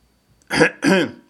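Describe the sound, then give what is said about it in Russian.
A throat is cleared cautiously in two short, rough bursts separated by a brief gap, the second slightly longer than the first. It sounds like a voice performing the throat clearing. “Осторожно откашлялся телеширп.”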